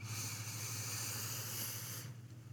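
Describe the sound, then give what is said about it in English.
A slow, deep breath drawn in, heard as a soft, steady airy hiss that lasts about two seconds and then cuts off, faint and alone without talk. “Let's take two deep breaths. In.”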